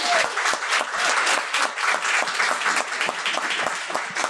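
Audience applause greets a comedian as she is introduced onto the stage: dense, steady clapping with some crowd noise that holds loud and even for about four seconds.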